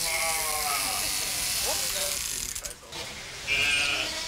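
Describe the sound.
Heidschnucke sheep at a wildlife park bleat while being sheared with electric clippers, a steady buzzing drone running throughout with a brief bleat rising above it and a brighter clipper whine near the end.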